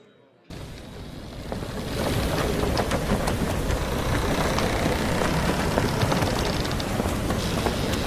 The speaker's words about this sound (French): Nous continuons en route sur les océans. La mer est déchaînée.